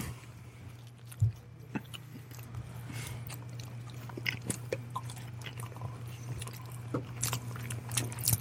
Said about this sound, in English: Okay, then on the count of three, we're going to all eat our Timbits directly into the microphone. Like one, two, three. I will take this Timbit and eat it.